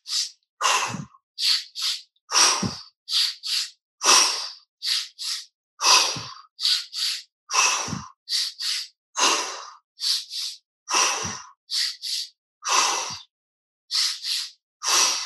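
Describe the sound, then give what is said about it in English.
Deep breathing exercise: two quick sniffing inhales through the nose, then a long, forceful exhale through the mouth. The pattern repeats steadily over many cycles with no talking. “And a big inhale twice in through your nose. Big exhale out through your mouth. Keep up that pattern.”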